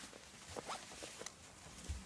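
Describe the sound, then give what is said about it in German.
A zipper being closed on clothing: a few faint, short rasping pulls over a steady background hiss. “Hast du nicht noch einen Reißverschluss zu machen?”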